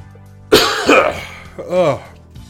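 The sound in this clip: A person clears their throat forcefully, trying to dislodge something stuck at the back of the throat: a harsh rasping burst, then a second, more voiced throat-clearing sound.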